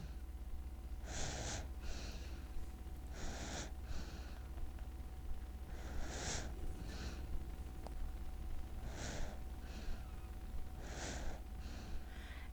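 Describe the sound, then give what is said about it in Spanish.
A baby breathes softly and rhythmically, with many breathy, snuffling inhales and exhales, some in quick pairs, over a steady low hiss. “Esto que escuchamos es una respiración, sí, de bebé.”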